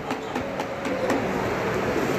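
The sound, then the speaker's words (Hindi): Rumble of a train arriving at a railway station: a steady, loud roar of rolling noise with faint rhythmic clicks running through it. “चलिए मेरी train तो आ गई आप अपनी train भी पकड़ लीजिए”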